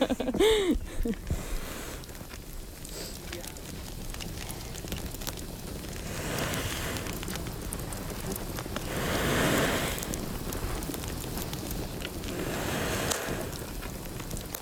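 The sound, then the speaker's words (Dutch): A campfire lit from struck sparks on tinder at an Iron Age reenactment crackles and hisses steadily, with scattered sharp pops and a few louder surges of noise throughout. “We zijn inderdaad een vuur gemaakt.”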